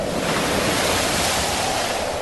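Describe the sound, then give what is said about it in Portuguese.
Strong wind and heavy waves crash against a boat filling with water in a storm, a loud, continuous roaring wash of noise with no voices. “começou a soprar um vento muito forte e as ondas arrebentavam com tanta força em cima do barco que ele já estava ficando cheio de água.”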